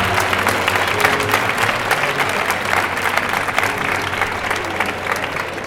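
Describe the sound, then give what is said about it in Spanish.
A crowd in a town square bursts into loud, sustained applause at an August fair's opening proclamation, a dense, even clatter of many clapping hands with no pauses. “desde aquí pido un gran aplauso para las archidonesas.”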